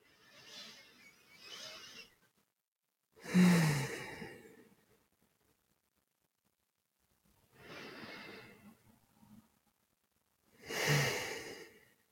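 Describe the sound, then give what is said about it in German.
Slow, deep breaths taken during a guided relaxation exercise: a few long, airy inhales and exhales, each followed by a pause of near silence, soft and unhurried with no talking. “Und dann nimm doch mal 3 tiefe Atemzüge in deinem Rhythmus ein und schließ gerne schon dabei die Augen.”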